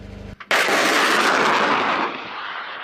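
A sharp, loud blast and rushing roar mark an anti-tank missile launching from a missile vehicle at a tank target in a military exercise. The broad roar holds steady, then eases after about two seconds.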